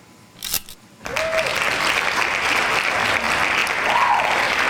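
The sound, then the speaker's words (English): Hand claps break out after a couple of brief clicks and a short pause: steady, dense applause from a group that holds an even level to the end. “He'll be back next week. Hand claps to him,”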